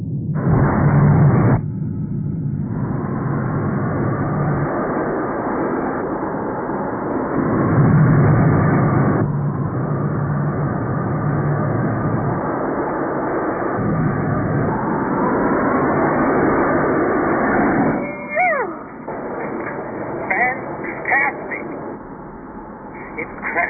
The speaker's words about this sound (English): Recon Viper 1 indicating light speed and accelerating. Okay, baby, let's see what you can do.